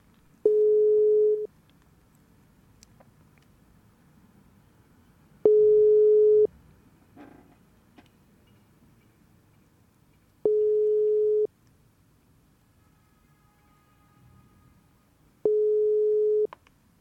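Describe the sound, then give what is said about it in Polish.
Telephone busy signal while redialing a dropped call to guests: four steady, buzzy tone bursts about a second long, evenly spaced several seconds apart over a faint low hum, with no talk. “połączenie nam się nagle urwało, ale spróbujemy jeszcze raz połączyć się z naszymi drogimi gośćmi.”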